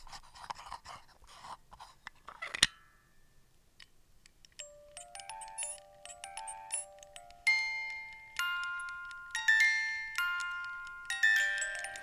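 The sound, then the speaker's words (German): A small music box being opened: soft rustling handling and a sharp click as the lid lifts, then faint, bright plinking comb notes playing a slow, ringing melody. “Peter McKinnon hat im äh, Vorspann von einem seiner Videos eine kleine Kiste aufgeklappt. Ich mache das jetzt mal, aber das ist bestimmt ein bisschen ASMR”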